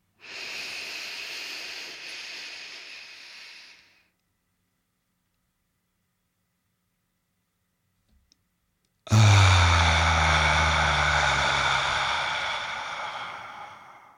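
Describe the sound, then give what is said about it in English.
A long, deep breath drawn in through the nose hisses for about four seconds, then silence holds, followed by a loud, voiced exhale that starts strong and slowly fades over several seconds. “Inhale for 5 through your nose, hold for 5 at the top, exhale with an audible sound for 5.”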